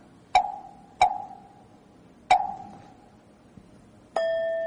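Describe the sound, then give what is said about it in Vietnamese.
A Buddhist temple bell struck in the southern Vietnamese style gives three sharp metallic strikes, each ringing out and fading, the third after a longer pause. A steady, held ringing tone with bright overtones follows near the end. “Thì ở đây là mình khai mỏ chuông theo kiểu miền Nam.”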